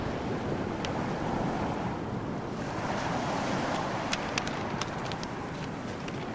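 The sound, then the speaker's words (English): Sea waves rush steadily onto a stony shore with wind noise, a dense, even roar that stays constant throughout, with a few faint sharp ticks scattered over the second half. “She stares at the sea.”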